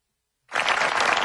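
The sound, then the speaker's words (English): Polite golf clap: soft, dense applause that starts abruptly after a short silence and continues evenly to the end. “I'll do a polite golf clap.”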